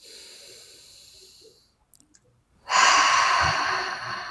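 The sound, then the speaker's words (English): A deep breath during a guided tapping exercise: a soft breathy rush, then a brief silence with a few tiny clicks, then a long, loud, airy breath that holds to the end. “Deep breath.”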